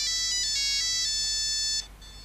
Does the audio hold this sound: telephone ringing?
yes